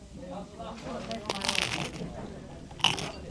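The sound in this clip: Crunching of a lemacsúny snack being bitten and chewed, a dense crackly texture with a couple of sharper, louder crunches standing out.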